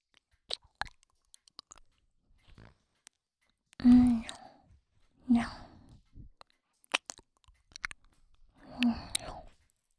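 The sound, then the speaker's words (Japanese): Close ASMR mouth sounds of ear biting and chewing, with a few soft, wet bursts and small clicks spaced by quiet gaps, alongside faint whispery breaths. “よく覚えといてくださいね。多分最初で最後ですよ。こんなに人の耳噛むの。”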